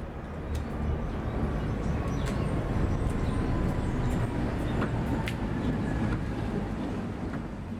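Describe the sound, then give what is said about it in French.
The Ficelle, a small rack railway train in Lausanne, gives a steady low mechanical rumble. It is dense and continuous throughout, with a few faint high clicks and squeaks above it. “celui qui reconnaît le petit train à crémaillère de la ficelle à Lausanne, en fait un élément structurant et naturel du paysage sonore d'ensemble.”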